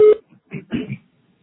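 A voicemail beep tone from a phone answering system: one short, loud, steady electronic tone at the start, followed by a few brief, softer murmuring sounds.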